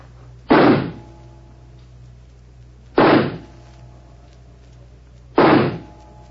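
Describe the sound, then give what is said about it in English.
Three loud, sharp shots ring out from a loaded revolver fired at a target, evenly spaced about two and a half seconds apart. Each is a single hard crack with a short decay over quiet background hum. “I must just check that it's loaded. Yes, 6 bullets. All right, here I go.”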